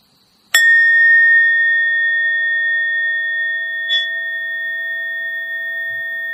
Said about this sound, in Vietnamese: sau đó mình mới thỉnh một tiếng chuông.